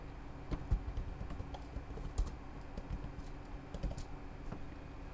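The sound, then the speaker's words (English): Typing on a computer keyboard: a rapid, irregular run of many light key clicks with a few louder strikes, heard alone. “And of course, you can just type your words of wisdom.”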